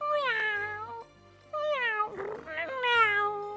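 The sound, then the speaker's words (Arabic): A cat meowing as a sound effect in a children's forest-friends story, where a female cat approaches a dog: several long, high, tonal meows with a brief breathy, noisy sound between the later ones, heard alone. “واقتربت القطة عبلة من الكلب نمرود، هرت بين يديه”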